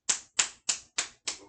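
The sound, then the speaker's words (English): A pack of cigarettes is packed by tapping it: five sharp, evenly spaced taps, each a crisp slap with a quick decay, in a steady rhythm. “Tech Bitch, did you ever pack a pack of cigarettes?”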